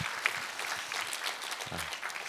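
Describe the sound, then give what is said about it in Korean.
A church audience applauding in thanks during a service: steady, even clapping from many hands, fairly faint and unbroken throughout. “우리 하나님께 감사와 영광의 박수 올려드리겠습니다.”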